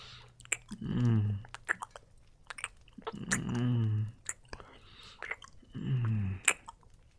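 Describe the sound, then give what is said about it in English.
Wet mouth licking and sucking sounds come in three drawn-out bursts, soft and close, with small clicks scattered between them. “Licking and sucking on those pussy lips.”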